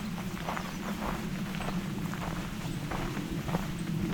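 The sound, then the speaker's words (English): Footsteps walk at a steady, even pace along a nature trail in a nature preserve, each step a soft crunch. The steps repeat regularly over a constant low background rumble. “So now that I'm starting the trail in Johnson Harbor, also known as Pine Tree Point Nature Preserve,”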